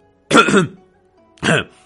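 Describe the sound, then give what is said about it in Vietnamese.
A man clears his throat, two short, rough, guttural bursts separated by a brief pause, loud and alone. “Cuối cùng Tư Đồ Tiếu hắng giọng.”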